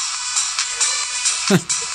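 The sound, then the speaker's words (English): A phone ringtone used as a signal bell plays a bright, repeating high tone pattern, with a quick swooping sound near the end and talk beneath it. “But we're just getting going. That's our bell.”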